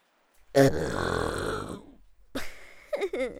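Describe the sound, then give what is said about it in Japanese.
A loud, drawn-out burp rasps low and gravelly for over a second, followed by a few brief throaty vocal sounds. “急にゲップされてもう我慢の限界だよね。”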